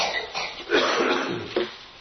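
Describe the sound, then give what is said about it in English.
Coughing from a preacher during a sermon: a short series of a few harsh, dry coughs, with the longest and loudest in the middle, heard alone without speech. “1 Corinthians 15, I hope that you'll be patient with me in the coughing. That's just going to happen.”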